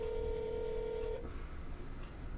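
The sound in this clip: A telephone dialing tone sounds while a call is placed: one steady, clear electronic tone holds for just over a second and then cuts off, leaving only a low background hiss.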